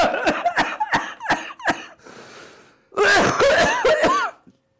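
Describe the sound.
Choking coughs mixed with laughter from a man on a Greek football talk show. A rapid run of short, harsh bursts comes first, then a brief pause and a louder cluster of wheezy spasms.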